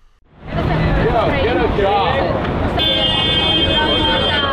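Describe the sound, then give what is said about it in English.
Busy street-corner traffic in an affluent Midtown Manhattan neighborhood: a loud, steady roar of vehicles mixed with a babble of voices. A sustained horn-like tone joins partway through. “On a busy street corner in an affluent Midtown Manhattan neighborhood, a group of 30 people gather at a picket line outside of a hot and crusty bakery”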